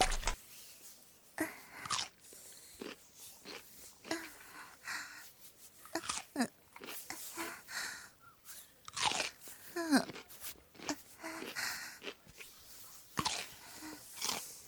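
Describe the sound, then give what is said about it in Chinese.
Crisp crunching and chewing of cucumber: many sharp, irregular bites and chomps in quick, loud bursts with short pauses between them. “黄瓜可以吃了哦。”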